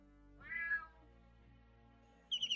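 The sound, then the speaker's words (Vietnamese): Feral cats calling to one another with eerie, mournful cries: one drawn-out, wavering meow, then after a quiet stretch a quick run of a few high-pitched calls, all against a low, steady background. “bà nghe rõ có tiếng mèo hoang gọi đàn đến thê lương”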